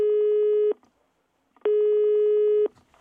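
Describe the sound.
Two steady, buzzy electronic telephone tones from an answering machine, each about a second long and separated by a short pause, loud and evenly pitched.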